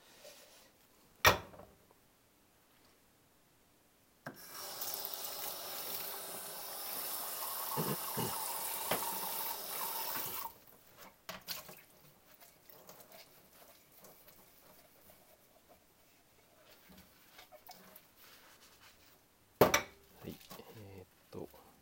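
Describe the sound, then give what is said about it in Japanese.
Dishes being rinsed under running tap water after washing with detergent: a steady rushing hiss lasting several seconds, framed by quieter clinks and handling sounds before and after. “洗剤つけ終わったのではすすいでいきます、えー、スキレットはまだなんですけれども”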